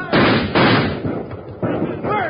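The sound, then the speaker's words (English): Gunshots in a Western shootout at the border ring out as several loud, booming cracks at irregular intervals. Each has a dull, muffled tail. “Fight them off! Shoot all of them!”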